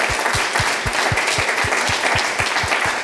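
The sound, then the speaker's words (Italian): An audience claps in tribute to a colleague, a loud, dense applause with a steady, rhythmic beat running throughout. “facciamo un applauso per lui”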